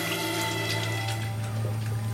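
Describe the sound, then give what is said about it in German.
Water running from a tap as someone washes their hands, a steady, unbroken splashing flow at an even level throughout. “Lass dein Vater in Ruhe die Hände waschen.”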